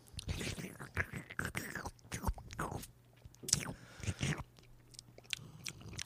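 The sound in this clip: Soft slurps and wet mouth sounds come as someone takes a small sip of beer at a tasting, quiet and irregular with faint breathy noises between them.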